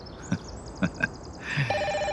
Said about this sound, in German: Das Klingeln des Telefons riss mich aus meinen Gedanken.